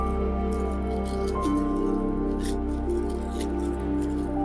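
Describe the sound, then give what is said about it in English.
A fire pops and crackles in a guided meditation setting. Sparse, soft crackles land now and then over sustained, calm ambient music tones. “Hear the popping and the crackling of the fire.”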